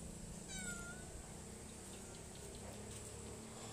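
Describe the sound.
A cat meows once outside, in front of a house in a village: a single short, high tonal call standing over a steady low hum, with no voices.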